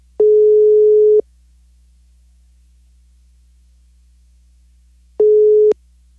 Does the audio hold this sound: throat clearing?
no